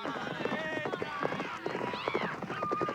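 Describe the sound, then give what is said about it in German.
Hoofbeats of horses riding off in a hurry, a rapid run of clops under excited shouting voices throughout. “Auf die Pferde! Schnell!”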